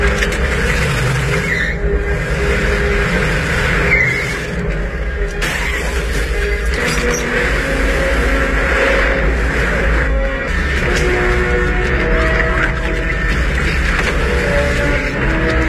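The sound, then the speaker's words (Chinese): A car is driven off a ferry into the sea, heard as a loud, continuous engine drone that dips briefly near the fourth second and holds steady without voices. “趁莱曼下车买水的功夫，将汽车从渡船上驶入了大海”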